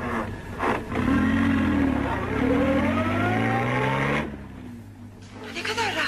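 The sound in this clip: Car engine of a moving passenger car humming steadily, its low tone rising gently in pitch before easing off near the end.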